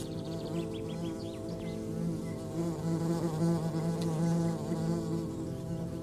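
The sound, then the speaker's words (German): Wasps buzz around fallen figs under a fig tree in evening sun, a steady, continuous droning hum with slight wavering in pitch and loudness throughout, no voices. “Die Wespe, die sich der Herr gerade mit seinem Stock vom Leib gehalten hat, gesellt sich zu einem Wespenpulk, der gerade eine Feige unter dem Feigenbaum zerfleischt.”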